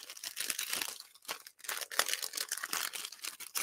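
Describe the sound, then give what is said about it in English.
Crinkling and tearing of wrapping paper as a gift is unwrapped, a dense, continuous papery rustle with sharp rips and one short pause partway through. “So tonight I have another gift for day four, so I'm going to go ahead and unwrap this gift.”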